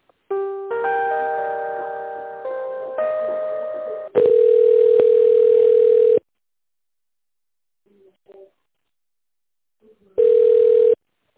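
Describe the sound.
A telephone ringing tone plays while a call is transferred. A short electronic melody comes first, then long steady beeps separated by silence.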